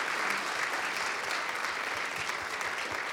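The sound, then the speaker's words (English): An audience applauds to welcome people watching a live stream online, a steady, dense patter of many hands clapping with no pause. “I want you to put your hands together for those that are watching. Would you do that? Come on. Let's make them feel welcome.”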